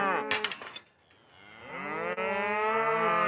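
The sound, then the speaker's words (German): Cattle in a herd with a one-tonne bull moo on a pasture: a short call, a brief lull, then one long, drawn-out, low moo that carries to the end. “Die Herde um Bernie kommt Isa immer näher.”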